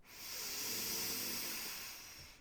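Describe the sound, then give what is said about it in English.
One long, deep breath during Wim Hof breathwork: a breathy, airy hiss that swells up and then fades away over about two seconds. “Three more with me. Fully in. Let it go. Two breaths in.”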